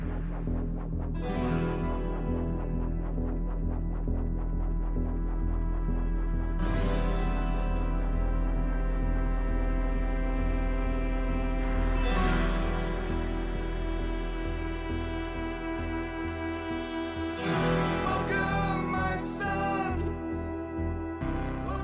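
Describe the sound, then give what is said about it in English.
Mechanical throbbing sounds open a rock song: a loud, continuous low pulsing drone with harsh whooshing swells that rise at regular intervals, about every five seconds, with no voices. “Mechanical sounds open the song for nearly a full minute before any sort”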